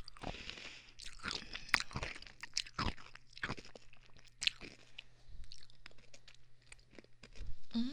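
Someone chewing and crunching food: many crisp, irregular crunches and bites with wetter chewing in between, moderately loud and continuous, with no talk.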